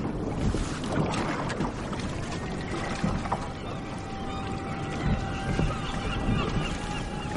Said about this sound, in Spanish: Observan el ferry fondeando en medio de la ría.